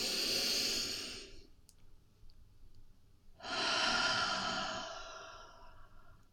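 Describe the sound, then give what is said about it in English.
A deep breath drawn in and let out, heard as two long, airy, breathy rushes separated by a quiet pause of about two seconds, the second fading away slowly. “Let's take a deep breath together. The biggest breath of the day.”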